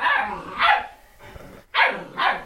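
Puppies barking in a few sharp, loud bursts while they play with a cat toy that has a mouse on the end. The yaps come in uneven pairs separated by brief pauses, with no voices.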